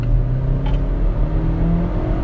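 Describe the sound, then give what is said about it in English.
A car engine accelerates as the car turns and merges onto Route 1, a highway in Oxford, Pennsylvania. A loud, steady, low engine drone and hum fill the whole stretch, with no voices. “I'm turning onto the highway and I want to focus so I don't get hurt and don't have an accident”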